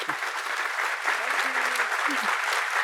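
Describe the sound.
An audience claps in sustained applause to welcome a panel at a live event, a dense, even patter of many hands that holds steady throughout.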